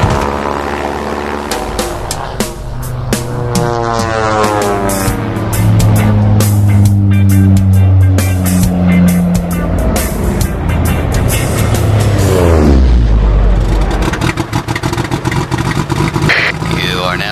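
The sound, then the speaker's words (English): A motor runs loudly and continuously with a droning, propeller-like buzz and rattly edge, its pitch sweeping up and down as it revs. “Whoa, kill the motor, dude.”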